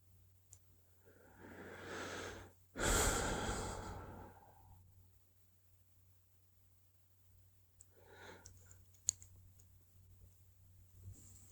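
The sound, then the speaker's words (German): A deep breath in, taken while feeling a little tense: two soft, airy breaths close together, the second louder and fuller, then a fainter breath several seconds later in otherwise quiet surroundings. “Ja, und ein, ein Durchatmen, ein tiefes Einatmen.”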